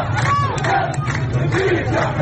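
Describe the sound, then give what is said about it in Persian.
Protesters in Khuzestan, Iran, chant slogans about thirst and being shot at. A dense crowd of voices shouts together in a steady, rhythmic surge. The sound is muffled and fairly loud throughout. “معترضانی که فریاد می‌زنند من تشنم و حقم گلوله نیست.”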